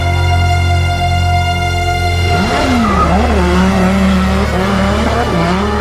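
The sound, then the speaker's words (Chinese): Harsh, noisy car engine revving on a road, a loud droning roar that breaks into wavering pitch swings as the revs climb and drop, continuous from start to end. “嘈吵以及刺耳的引擎声在条大道上传出来。”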